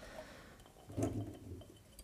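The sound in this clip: Organic chickpeas slide wetly out of a glass jar in one faint, squishy, liquid slosh, with a few quieter drips and clinks around it.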